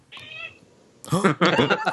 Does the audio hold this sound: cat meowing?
yes